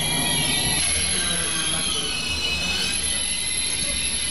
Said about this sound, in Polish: Ale zgrzyta i piszczy, przyznają państwo. Normalnie. Pociąg na dworzec Warszawa Centralny wjechał punktualnie.